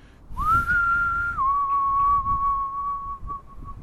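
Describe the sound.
A single long whistled call from a spooky folk tale: a clear tone that rises briefly at the start, then drops to a slightly lower pitch held for several seconds, alone over faint background noise.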